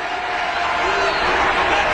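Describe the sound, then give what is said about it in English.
A crowd at a Trump rally in Texas voices its displeasure at a heckler, a dense, loud and unbroken roar of many voices that holds steady for the whole two seconds. “the crowd is showing their displeasure against this heckler. He finally leaves.”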